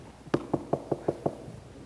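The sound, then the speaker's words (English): Six light, evenly spaced knocks on a door, quiet and polite in a steady rhythm, with nothing else around them. “Jesus doesn't knock. I want to tell you, I mean, no offense. Jesus doesn't knock like a lady.”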